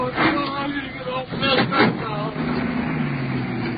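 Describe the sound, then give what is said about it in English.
A police car, car 5-2, drives off carrying a handcuffed prisoner, its engine a steady low rumble that holds through the whole stretch beneath voices talking. “There goes car 5-2. Moving on now with the prisoner. Officer DeMoe driving.”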